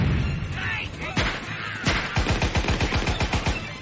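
Gunfire sound effect of guerrillas shooting: rumbling blasts give way to a steady rattling burst of rapid, evenly spaced shots that continues to the end.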